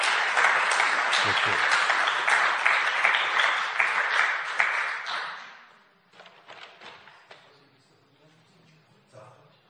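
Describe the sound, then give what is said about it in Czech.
Audience applause at a gathering in Husinec: dense, steady clapping for about six seconds that cuts off sharply, followed by quieter scattered knocks and movement. “Tak kdybychom mohli poděkovat potleskem”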